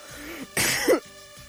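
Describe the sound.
A single short, harsh cough, like a throat-clearing burst, from a person in the middle of talking, about half a second long.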